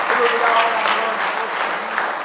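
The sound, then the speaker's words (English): A church audience claps hands in praise during a service, producing a dense, steady wash of clapping that stays loud throughout, with voices faintly mixed in. “Let's give Him one more good hand clap of praise tonight.”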